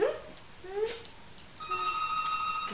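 A telephone rings with a steady electronic ringtone of bright, high, sustained tones that starts partway through and continues to the end, preceded by a few brief, faint sounds from the room.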